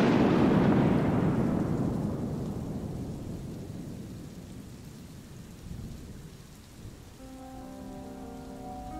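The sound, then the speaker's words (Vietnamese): A thunderstorm with lightning: a loud thunderclap rumbles deeply, then slowly fades over several seconds into steady rain. Soft sustained tones rise faintly near the end. “Sau lưng ông, sấm chớp chói lòa.”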